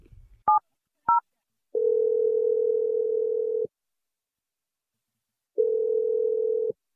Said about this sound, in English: I'm going to dial his number. Let's hopefully he picks up.